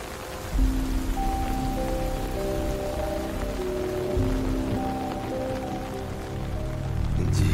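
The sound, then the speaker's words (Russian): Rain pours outside in a dense, even hiss of drops that holds steady from start to finish, with soft, sustained musical tones running beneath it. “Снаружи льет дождь.”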